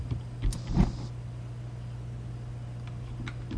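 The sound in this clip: An electric lighter igniting a gas stove: a couple of sharp clicks with a brief airy hiss, then only a faint, steady low hum with a few soft ticks.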